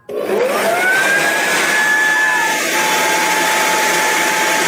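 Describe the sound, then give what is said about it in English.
A leaf blower blasts air at a door to try to shut it: a loud whooshing roar with a whining tone that spins up sharply at the start, then holds constant and steady throughout. “I wanted to know how much wind it would take to shut that door, so I did an impromptu leaf blower. Leaf blower, and here are the results.”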